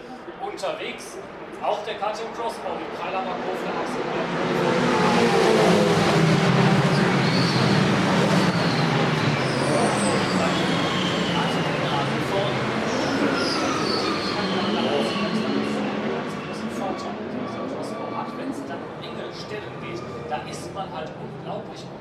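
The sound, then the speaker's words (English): Porsche race cars passing at the start of a 24-hour race, a broad roaring wash that builds, holds loud through the middle and then fades, with a voice talking over it. “That's it for the next 24 hours. Here come the Porsches. Ready for this.”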